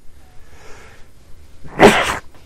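A single loud, explosive sneeze bursts out near the end, after a quieter stretch of faint breathy sounds, then trails off quickly.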